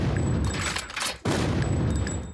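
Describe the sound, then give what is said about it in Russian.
Cannon fire blasts knights off on cannonballs in an animated film, a loud, roaring barrage that dips briefly midway before a second booming burst takes over. “Огонь! Витязь за витязем улетает на ядре.”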